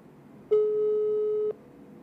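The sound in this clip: A telephone busy signal heard on an outgoing call: a single steady, mid-pitched electronic beep lasting about one second, sounding alone against faint background hiss.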